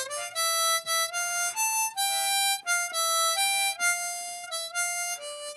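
Harmonica played one note at a time by a beginner: a series of clear, reedy held notes with short breaks between them, moving up and down in a simple, halting line.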